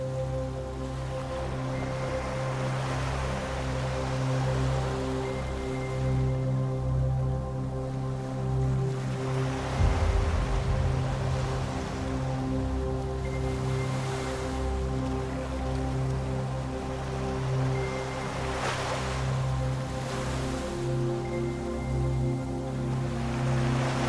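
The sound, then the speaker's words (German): Sea waves wash in gentle swells on a night sea, a broad hiss rising and falling a few times over a steady tonal drone, with no voices. “Unter dir leuchtet das Meer.”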